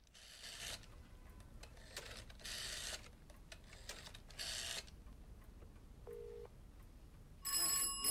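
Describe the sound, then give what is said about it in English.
A telephone rings during a secretive phone call. A few harsh, buzzing ring bursts repeat at intervals over a steady hiss, fairly faint overall. “Now, Billy's making a surreptitious phone call.”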